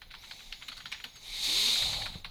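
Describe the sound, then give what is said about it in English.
Typing on a computer keyboard, with a run of quick, light clicks followed by a broad, steady hiss that swells and then fades. “I accidentally typed oyster bras.”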